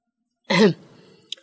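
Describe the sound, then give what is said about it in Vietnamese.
A woman clears her throat once in a short, loud rasp that trails off quickly. “Thấy cả hai người nhìn nhau đầy âu yếm, cô hắng giọng một cái.”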